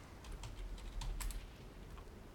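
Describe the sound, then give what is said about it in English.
Heavy dice roll and clatter in a quick run of dry, faint clicking taps spread across about two seconds. “That sounded like a heavy dice roll to me.”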